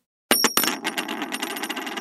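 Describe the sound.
A convict token, a special coin, drops onto a hard surface: a few sharp metallic bounces, then a quick ringing rattle that fades as it settles. No voices.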